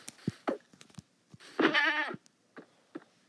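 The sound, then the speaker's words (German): Goats bleat in a video game: one drawn-out, wavering bleat stands out in the middle, with a few short, soft sounds before and after it. “Okay, diese Ziegen greifen nicht an. Das machen sie doch.”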